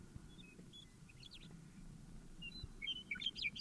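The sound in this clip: Faint, high chirps of a single bird call, a few brief notes early and a denser cluster of sharp tweets near the end, over a low background rumble.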